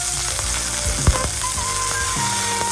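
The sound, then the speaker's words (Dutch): A hamburger fries on a barbecue grill near a football arena, giving a steady, dense sizzle with a sharp clack partway through. The sizzle carries on evenly without talking. “Dit klinkt wel heel sappig. Ja, dat is het. Is dat ook een hamburger barbecue? Dit is een hamburger, die wordt graag gebakken.”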